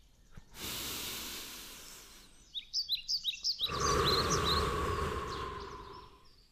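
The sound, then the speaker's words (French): A long, deep breath in and a slow breath out during a guided relaxation exercise. Two sustained, breathy hisses are separated by a brief pause, and a quick run of high bird chirps fills the gap between them. “prenez une inspiration longue et profonde, remplissez vos poumons et expirez lentement”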